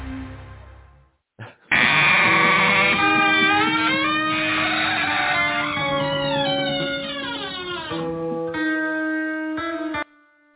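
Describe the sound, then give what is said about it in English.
Goat bleating: a long, loud, wavering harmonic cry sustained for several seconds, its pitch sliding downward toward the end, followed by a shorter final bleat, with no voices. “You know, I'd be lost without that goat.”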